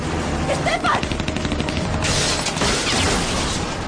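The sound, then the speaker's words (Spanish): Gunfire from a hitman shooting from a low-flying helicopter at the driver of a speeding jeep on a winding trail in a radio drama: loud, dense, rapid shots running continuously. “¡Mata al conductor! El sicario obedece y dispara.”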